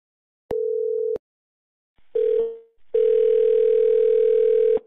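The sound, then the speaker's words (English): Telephone line tones after a call is disconnected: a short steady tone, a brief second burst that cuts away, then a long continuous dial tone. No voices are heard. “I'll be disconnecting the call.”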